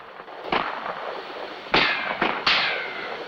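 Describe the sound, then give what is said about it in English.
Gunfire from soldiers, with bullets tearing into boxes of blasting gelatin: four sharp, noisy cracks over a steady hiss, the last two close together. “The soldiers shoot at the Queen with unrestrained enthusiasm. Bullets tear holes into the boxes of blasting gelatin.”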